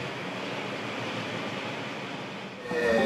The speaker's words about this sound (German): Zunächst geht es noch entlang der Hauptbahn. Dann biegt die Strecke ab in einen alten Tunnel.